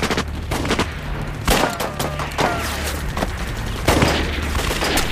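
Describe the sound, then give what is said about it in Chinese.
Gunfire in a video game shooter: many sharp, loud cracks in irregular rapid bursts over a steady low rumble, continuing throughout. “你别瞎开枪，知道打天上去了”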